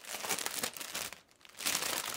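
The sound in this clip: Plastic film wrapped around a white lab suit being torn open, heard as crinkling and tearing in two busy bursts separated by a brief quiet pause.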